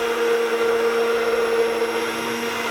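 Hand blender whirring steadily as it emulsifies oil into a sauce: a continuous motor whine with a strong, even hum that holds at a constant pitch throughout.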